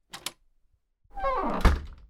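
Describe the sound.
A door as someone walks out through it: two light knocks, a pause, then a resonant creak that ends in a dull thump.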